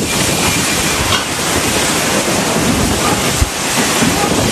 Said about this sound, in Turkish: Fırtına hala şiddetli devam ediyor.